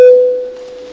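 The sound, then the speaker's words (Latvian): A parliament voting bell sounds as a single clear chime, struck sharply, then ringing on as a steady tone that slowly fades. “Lūdzu zvanu.”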